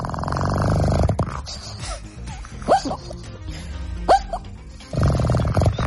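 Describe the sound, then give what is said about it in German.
A pug dog snoring loudly, with buzzy, rasping breaths at the start and end and two whistling, wheezy tones in the quieter middle. “Mopsdame Amelia und ihr Schnarchen. Leute, ey, die schnarchen nicht, die hat ein Turbo angeworfen.”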